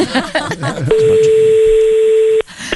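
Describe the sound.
A single steady electronic telephone tone rings out for about a second and a half as a phone call is placed. It follows a burst of voices and laughter, and then cuts off abruptly.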